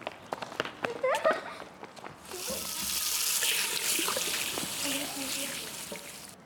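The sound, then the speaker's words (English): Quick footsteps of boys dashing to a restroom are followed by the steady hiss of tap water running into a sink as hands are washed, the water loud and continuous to the end. “The boys glanced at each other and dashed to the restroom to wash their hands.”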